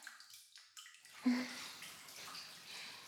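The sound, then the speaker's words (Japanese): Warm bath water moves in a bathtub: a soft splash followed by faint lapping and trickling, quiet throughout. “ちょうどいいお湯加減。あなたが入れてくれたんだよね。”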